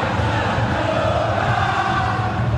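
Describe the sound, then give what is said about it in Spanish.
Stadium crowd of football spectators during a match, a steady, dense roar of massed voices with a low rumble underneath, holding an even loudness throughout. “Público, escuchen el público. El público es soberano.”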